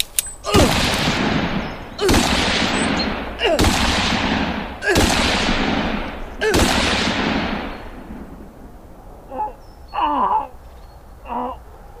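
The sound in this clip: Five loud gunshots from a concealed-carry handgun at a deer camp ring out about every one and a half seconds, each with a long fading tail, followed by a few fainter, shorter bursts.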